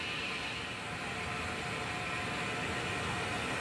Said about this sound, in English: Spectators lining a small stone bridge in countryside wave as the locomotive passes beneath them, momentarily engulfing them in grey smoke.